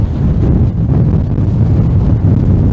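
Wind blowing across an outdoor microphone makes a steady, loud low rumble that buffets without pause for the whole stretch. No voices are heard.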